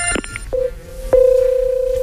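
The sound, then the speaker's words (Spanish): A telephone rings. A few clicks lead into a short electronic tone, then a longer sustained, warbling ring holds at a steady pitch. “Vamos a andar un poquito ahí al teléfono.”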